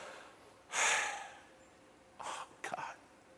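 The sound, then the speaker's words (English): A person imitates a groan with quiet, breathy sighing exhalations: one longer, stronger breath followed by two shorter ones, with no speech between them. “and you're just groaning, oh, you don't even know what to say.”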